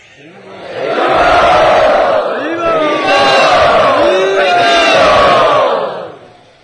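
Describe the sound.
A crowd cheers and whoops loudly to welcome a guest. The roar swells up after about a second, holds for several seconds with scattered high yells, then dies away.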